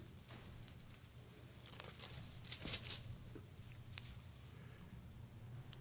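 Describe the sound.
Bible pages are turned, a faint papery rustling and crinkling that rises to a few brief, louder flutters midway before settling back to soft handling noise, with no voices.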